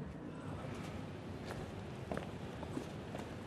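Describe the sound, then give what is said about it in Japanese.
Faint footsteps crunch along a path through dense, damp woodland, a few soft irregular steps over a quiet, hissy background. “我々は鬱蒼と生い茂る林というかほぼ森なんじゃないかっていう中を歩いていますが”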